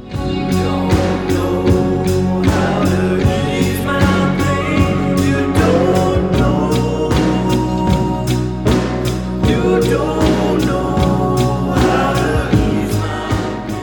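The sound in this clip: A song played back one full step faster in a sampler: dense, continuous music with steady rhythmic hits and layered sustained tones throughout, without talking.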